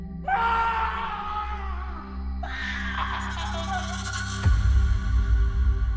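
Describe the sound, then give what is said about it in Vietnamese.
Anguished human screams, like someone being torn apart, come as two long, loud, wavering cries in a row over a steady low drone, then give way to a deep, heavy rumble. “Lại một tiếng gào thét đau đớn vang lên, làm Giáp sợ hãi, cúi rạp người xuống mép đất. Tiếng kêu la rất thảm thiết, giống như ai đó bị xé toạc ra vậy.”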